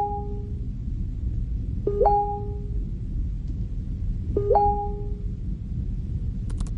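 Chat message notification chimes from a computer in a horror film: three short two-tone pings, the first cut off at the start, over a low steady hum, with faint clicks near the end.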